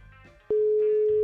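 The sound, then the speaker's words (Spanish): A steady single-pitched telephone ringing tone on an outgoing call starts abruptly partway through and holds loud and unbroken to the end, after a faint quiet stretch. “Ahí está sonando. Estamos llamando a Martín Galarza.”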